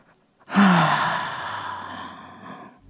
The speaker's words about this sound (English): Take another deep breath in. Filling up your entire belly, letting oxygen reach every inch of your body. And breathe out that tension.